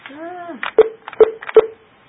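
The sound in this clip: Telephone keypad tones dial star 71 as three short, evenly spaced beeps, following a brief voice at the start.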